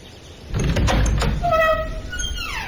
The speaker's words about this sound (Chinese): 李大钊便推门而入